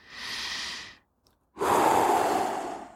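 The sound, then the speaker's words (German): Deep breaths during a guided meditation, with the breath drawn in through the nose: two airy breath sounds separated by a brief pause, the second louder and longer than the first. “Du atmest tief durch die Nase ein.”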